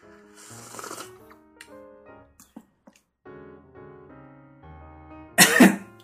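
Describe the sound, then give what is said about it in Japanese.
Coughing and choking on spicy soup with oil floating on top, a loud, harsh burst near the end and a softer rough one earlier, over a faint steady tonal background. “むせてますよ。 辛い。”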